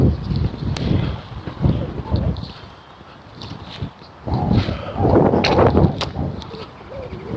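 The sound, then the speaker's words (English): Wind gusting across a microphone in a park beside a concrete path, making low rumbling bursts that surge and ebb. A lull comes midway before a stronger, sustained gust returns. “Okay, here's the wind.”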